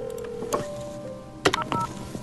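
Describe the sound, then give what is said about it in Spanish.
Telephone tones of an incoming call on an open phone-in line: a steady electronic tone, then sharp clicks and a few short beeps as the call connects, with no voices. “Tenemos una llamada.”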